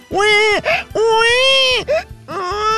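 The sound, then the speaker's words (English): A person's voice imitates a colicky baby crying: three drawn-out, wavering wails with short catches between them. Each wail is loud and nasal and falls in pitch at its end. “Wow, this sounds like a baby who's got... colicky.”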